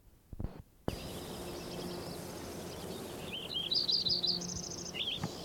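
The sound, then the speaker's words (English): Lincoln's sparrow song: a bright, high, bubbling run of rapid trilled chirps that grows louder in the second half, over a steady background hiss. “Lincoln sparrow number 7.”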